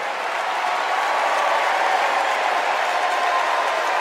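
Dense crowd applause and cheering for Governor J.B. Pritzker at the Democratic National Convention in Chicago, a steady, continuous wash of clapping that holds at an even level throughout.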